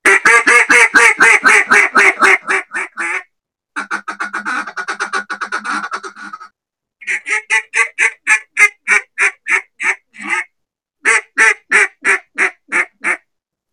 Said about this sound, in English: It's a mid-range call. It'll get pretty loud, but it really shines on the bottom end.